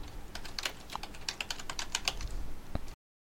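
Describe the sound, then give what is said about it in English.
Rapid keystrokes on a computer keyboard while a subject line is typed, many crisp clicks in a steady, uneven rhythm, fairly faint, with no voices. “A blinking line will appear. Now you can type your subject line.”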